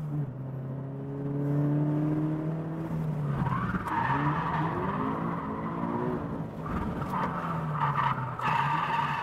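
A nearly stock Subaru BRZ drifts at Suzuka Twin Circuit. Its engine drones in steady harmonics while the tires skid and squeal continuously, with surges of revving throughout.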